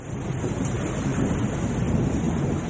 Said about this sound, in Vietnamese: Bên ngoài trời mưa to, nước mưa che khuất cả mặt kính xe.